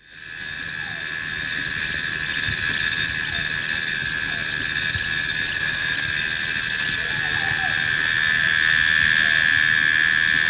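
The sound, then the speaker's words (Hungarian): Crickets chirp on a tropical moonlit night in a dense, high-pitched pulsing trill that runs steadily and loudly throughout, with no voices. “de a tücsök zene, mint a világ legtöbb részén, itt is a fő hangot vitte. Ezt a felvételt is megszólaltatom, ha már a trópusi holdfényt nem tudom ide varázsolni a magyarországi nyárba.”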